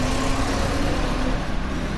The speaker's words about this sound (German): Der Verkehr auf dem Rustaveli-Prospekt braust unaufhörlich. Abgaswolken hängen schwer in der Luft.